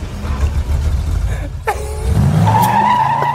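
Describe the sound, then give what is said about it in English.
Tires squeal as a car drives off in a film scene, a low engine rumble underneath and a loud, sustained high screech taking over in the second half. “This is just how Nicolas Cage drives off in a car.”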